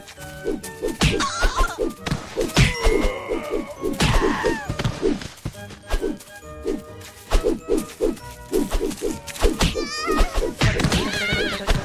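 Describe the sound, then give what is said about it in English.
Many punch impacts land as a monkey is struck in a video game: dull thuds and whacks in quick, irregular bursts over steady game music and other in-game sound effects. “Oh, I punched a monkey again!”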